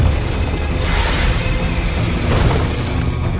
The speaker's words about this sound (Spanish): Él atraviesa una ventana y cae en una terraza.